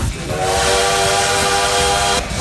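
A train whistle sound effect blows one steady, sustained tone for about two seconds over the loud hissing, rumbling roll of a moving train.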